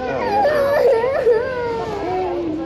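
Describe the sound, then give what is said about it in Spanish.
A child sobs and wails in wavering, high-pitched cries, from a recording of children separated from their parents under a zero-tolerance immigration policy. The crying is steady and fairly loud throughout. “No llores.”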